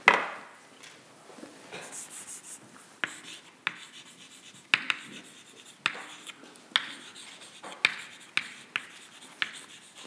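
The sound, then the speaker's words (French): Handwriting on a surface, a steady faint scratchy rubbing broken by many sharp taps as strokes begin, with no talking. “Donc je vais écrire la variance”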